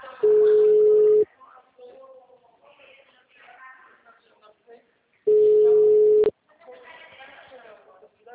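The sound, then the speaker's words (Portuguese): Telephone tones sound while a call is being transferred: two long, steady, mid-pitched beeps of about a second each, separated by a pause with quieter sound in between. “Aguarde enquanto transferimos sua ligação.”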